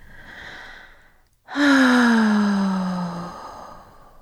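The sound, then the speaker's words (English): A long, loud exhale in a guided breathing exercise, voiced like a deep sigh whose pitch slowly falls over about two seconds, after a softer breath and a brief pause. “Allow for your exhaling to be loud and long.”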